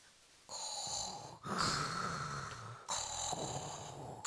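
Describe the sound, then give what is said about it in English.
A voice imitates the heavy, rasping breathing of a mechanical respirator, with three long, hoarse breaths carrying a buzzing, hissing tone. It is fairly loud and alone, with no other talk. “I'd rather breathe like Darth Vader.”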